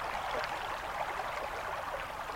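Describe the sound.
River water rushing over rocks: a steady, faint hiss and babble of flowing water that runs evenly throughout, with no voices.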